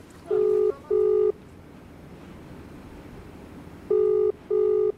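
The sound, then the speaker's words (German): Telephone ringback tone on a call placed to Delhi: four short steady mid-pitched beeps, heard as two pairs separated by a long pause, over a faint hiss. “Zurück in Delhi, ein Anruf bei Avikal Somvashi.”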